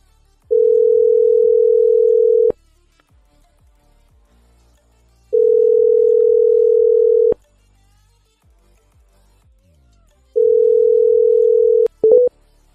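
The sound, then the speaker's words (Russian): Telephone ringback tone while a number is dialed: three long, steady mid-pitched tone bursts separated by silent gaps, with faint clicks and a short burst of noise at the very end. “Набираю.”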